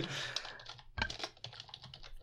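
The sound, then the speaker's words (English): Keys click quickly on a computer keyboard, many light keystrokes in an uneven rhythm with brief pauses. The typing is quiet and no one speaks over it. “And I'm typing it in the wrong place.”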